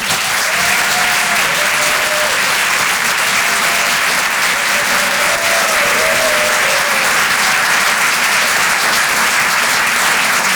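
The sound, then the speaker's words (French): A stand-up comedy audience applauds and cheers a comedian taking the stage, with dense, steady clapping at an even level throughout and a few whistles rising above it. “Je vous demande de l'encourager. Faites un maximum de bruit, s'il vous plaît, pour Amy London.”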